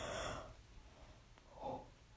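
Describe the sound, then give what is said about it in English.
A soft, breathy yawn: an airy rush of breath at the start, then a quiet pause and a second faint exhale, all low in level. “I'm so sorry, I yawned”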